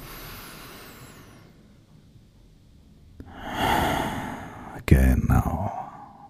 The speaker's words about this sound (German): Und noch einen tiefen Atemzug und fühl ihn im Körper.